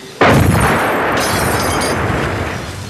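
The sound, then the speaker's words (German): A bomb exploding on a Mustang car: a sudden loud boom bursts in after a brief lull, then spreads into a sustained, roaring rumble that slowly fades. “Er hat eine Bombe auf den Mustang geworfen. Mensch, der zerstört unser Beweismaterial.”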